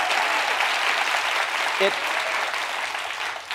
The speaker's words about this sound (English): Please welcome Senator Chris Murphy to The Daily Show.